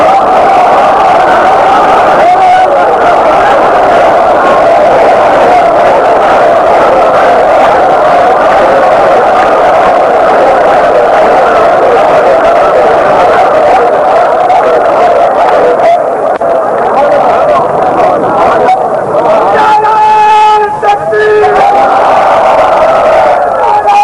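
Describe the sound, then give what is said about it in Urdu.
A large crowd chants religious slogans in unison in response to a preacher at a religious gathering, a loud, continuous, dense roar of massed voices that holds steady throughout. “اور نیچے سے مجمع نعرہ حیدری, نعرہ رسالت, نعرہ غوثیہ.”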